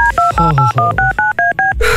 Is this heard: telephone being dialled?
yes